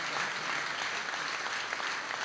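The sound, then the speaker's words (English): Supporters at a CDU Berlin party event applaud and cheer for the regional top candidate. The dense, even clapping holds at a soft level throughout. “No, I think it's the top candidate from Berlin here. I'm at the Berlin section of the CDU. CDU. It's not Merz speaking here. So there's a cheer for the regional CDU top candidate.”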